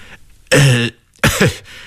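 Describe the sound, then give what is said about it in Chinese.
An awkward, nervous cough: two loud, rough bursts of coughing and throat clearing separated by a short pause, with no talk. “我尴尬地咳嗽了一下。”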